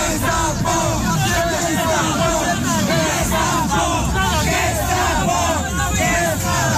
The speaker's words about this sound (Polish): Z ust demonstrantów można było usłyszeć okrzyki pod adresem komornika.